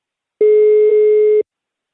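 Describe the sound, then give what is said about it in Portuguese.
An outgoing phone call plays its ringback tone: one steady, loud, mid-pitched buzzing tone lasting about a second, with silence on either side. “Ah, tá chamando Guilherme, eu vou dizer que vazaram as fotos dele.”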